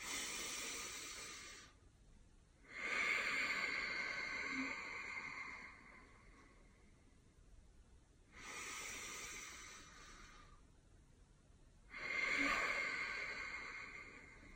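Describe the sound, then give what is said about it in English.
Slow, deep breaths in and out during a breathing exercise: four long, soft, airy rushes of air separated by quiet pauses, each swelling and fading gradually at a steady, unhurried pace. “Maybe you let your belly expand a little with that inhale. And as you exhale, everything compresses back up and that carbon dioxide from the cells comes back out your mouth. Let's try a few together now.”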